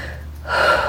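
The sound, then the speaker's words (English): One big deep breath is drawn in during a guided tapping exercise. The short inhale swells louder halfway through and is heard alone. “Big deep breath.”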